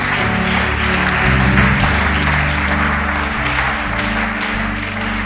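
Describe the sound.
An audience applauds during a church service with dense, steady clapping that keeps an even loudness throughout, with no pauses or speech over it.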